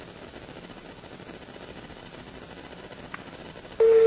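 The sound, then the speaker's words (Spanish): Telephone line sounds as a call is added and connected: a low, steady hiss with a faint click, then a loud, steady mid-pitched beep tone that starts abruptly near the end. “Vamos a agregar la llamada al señor Vicente. Agregar la llamada a Vicente Condori.”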